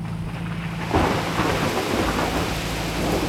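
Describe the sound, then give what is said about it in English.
A sudden jungle rain shower arrives as a steady, dense hiss of heavy rainfall that swells abruptly about a second in, with low rumbling underneath. No voices are heard. “My God, everything's getting soaked. These jungle rains, they are sudden, huh?”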